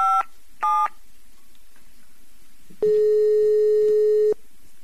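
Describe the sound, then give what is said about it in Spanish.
Telephone tones on a long international call to Chile: two short beeps, a pause, then one long steady tone, alone with no voices. “tenemos una llamada con una artista muy importante de Chile, así que es una llamada internacional, es larga. A ver si nos atiende.”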